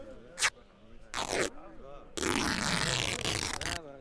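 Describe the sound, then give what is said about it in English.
Tent fabric being torn open to make a small hole, heard as three rough ripping bursts. The first is brief, the second longer, and the last is a drawn-out tear lasting over a second. “One moment, let me tear a tiny hole in this tent.”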